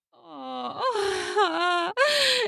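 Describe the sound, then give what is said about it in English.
A couple's drawn-out sexual moans and groans during intercourse: a few long, breathy voiced moans with wavering pitch, one rising in a swell near the middle, then a short pause before a final brief moan. “The push in causes a groan from both.”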